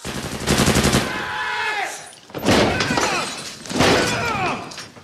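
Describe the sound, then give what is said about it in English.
Automatic gunfire as bullets are sprayed into a smoke-filled room: three long, dense, loud volleys of rapid shots, with brief dips between them. “They spray bullets into the smoke-enshrouded room”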